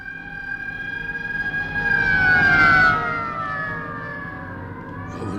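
A police car siren wails steadily and grows louder to a peak. Its pitch then drops and the sound fades as the car passes by.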